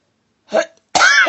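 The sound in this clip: A single short, rough cough bursts out, followed after a brief pause by a louder, sustained voiced sound.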